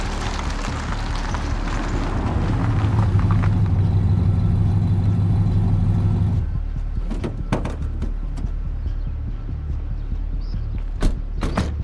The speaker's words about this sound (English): Guys, the suspicious vehicle is getting close.